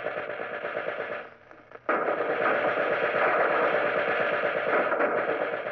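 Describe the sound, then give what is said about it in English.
Steady light arms gunfire in a battle, a dense, continuous rattle that briefly thins and drops away, then resumes louder and carries on unbroken. “Even while Folster spoke, firing began again. There is a steady light arms fire to our left. I don't know what it is, but it's too close.”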